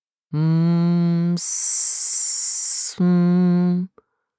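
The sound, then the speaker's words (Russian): A loud, harsh hiss like a giant mutated snake, lasting about a second and a half. It sits between two strong buzzing, low droning tones that start and stop abruptly. “Он раздавался где-то очень близко, пробивался сквозь пелену сна и походил на шипение змеи, но не настоящей, а какой-то гигантской или мутировавшей твари”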